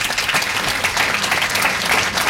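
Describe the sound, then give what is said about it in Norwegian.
Applause from an audience: dense, steady clapping fills the whole stretch at an even loudness, with no voices standing out. “Altså, applaus for Murakami der.”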